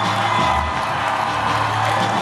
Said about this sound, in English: Cheers and applause, and here she comes.